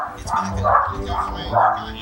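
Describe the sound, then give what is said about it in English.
Dogs fighting in a front hallway: continuous loud barking and snarling over about two seconds, with rough, harmonic yelps swelling and fading. “I apologize for the dog fight that seems to be occurring in the front hallway. I don't know what's going on there.”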